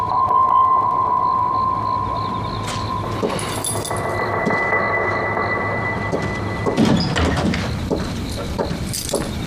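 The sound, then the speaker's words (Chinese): A door shuts with a brief thud, heard once over a steady low hum that runs through the whole recording. “门关上。”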